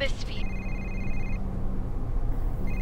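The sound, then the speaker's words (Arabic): Electronic telephone ringtone from an incoming call, a bright warbling tone in repeated bursts: a short one, a longer ring, a pause, then another starting at the end, over steady background noise. “هذا محمد اتصل رد عليه يمكن عنده شيء عن الموضوع”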